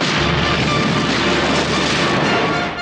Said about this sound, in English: Cruiser is exploding!